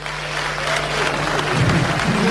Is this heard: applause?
yes